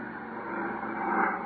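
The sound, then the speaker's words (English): An airplane taking off gives a steady, broad rushing roar that swells slightly toward the end, with no voices. “Gee, there it goes into the air. What a beautiful takeoff.”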